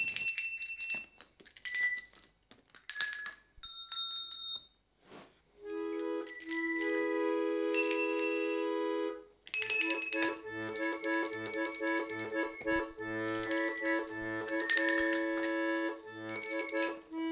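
Bells ringing for a bell-themed song: bright, ringing bell tones in irregular bursts separated by short pauses, growing denser and fuller toward the end.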